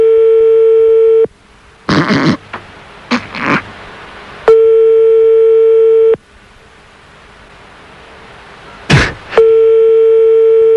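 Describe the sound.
A telephone ringback tone sounds on a call placed to France: three long, steady ringing tones separated by pauses, with short bursts of rustling and handling noise in the gaps.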